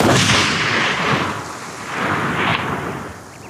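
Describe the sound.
A long-range sniper rifle shot rolls out as a deep, rumbling boom. Two broad swells of low noise rise and fade, one at the start and another later on, with no voices.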